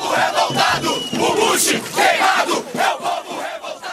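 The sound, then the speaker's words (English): Street protesters against the Iraq War in São Paulo shout and chant as a massed crowd, their loud voices rising and falling in rhythmic surges. “where he met with the president of Brazil, Da Silva, but also by protests against the Iraq War. And here's some sound from the streets of São Paulo.”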